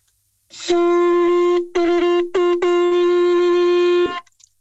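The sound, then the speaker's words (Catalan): A cow horn is blown in a loud, buzzy note at a steady low-mid pitch, rich in overtones. Brief gaps split the note into four segments, and it cuts off with a faint trailing sputter. “Això és el corn.”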